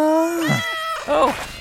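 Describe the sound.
Cats meowing as they pull a sleigh-like vehicle. Two drawn-out, wavering meows are separated by a short pause, and the first one drops in pitch at its end. Both are fairly loud and stand alone with no talk.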